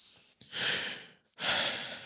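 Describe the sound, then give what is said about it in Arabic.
Two deep, airy breaths from the speaker, each a soft hiss that swells and then tapers, separated by a brief pause. They are quiet and heard alone. “أخذت نفس مثل هذا، وأتمنى الذكاء الاصطناعي اللي أستخدمه حتى يحسن الصوت ما راح يمسح النفس”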